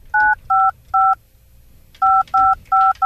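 Telephone keypad tones dialing a hotel in the Congo: three short even beeps, a pause, then four more in quick succession, the last cut off.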